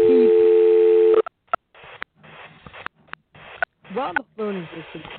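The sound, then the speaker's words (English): A steady, loud telephone tone plays as a phone is dialed. It holds for about a second, then cuts off, and people talk over a narrow, phone-like line. “His assistant dials his phone, and while the phone is basically dialing,”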